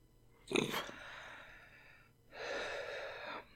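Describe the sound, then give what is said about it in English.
Airy hiss of a dab rig's carb during a quick vape inhalation: a short, sharp breathy burst, then a longer, steadier rush of air after a pause, both faint. “you can hear the carb action of the dab rig when I take just a quick inhalation of the vape”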